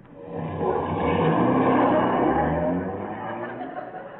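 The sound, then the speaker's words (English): A taxi car driving: a steady engine rumble with broad road noise. It swells through the middle and eases slightly toward the end. “what are you doing driving a taxi?”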